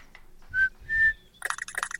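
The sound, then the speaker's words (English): Two clear tonal whistles from a video game played to a pet that shakes its tail; the second is slightly higher and longer, followed by a busier burst of fluttering game sound. “He's shaking his tail when I whistle. Press A to whistle again or D to put him back. Let's hit A.”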